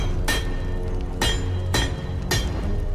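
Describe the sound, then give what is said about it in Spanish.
A hammer pounds red-hot iron being forged into a large machete in a smithy at night: four sharp, ringing metallic strikes at uneven intervals over a steady low background. “Durante parte de la noche golpea un hierro candente para fabricar un gran machete mientras reflexiona. Golpea con rabia el metal ardiente.”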